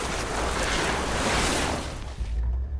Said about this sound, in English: Meanwhile, three power boats speed through a waterway.